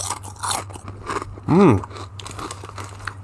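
A folded potato chip being bitten and chewed, with a few loud crisp crunches followed by wet chewing and crackling.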